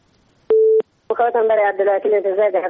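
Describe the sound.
A single short, steady telephone beep sounds after a call is cut off, a mid-pitched tone lasting a fraction of a second. A voice starts speaking soon after it.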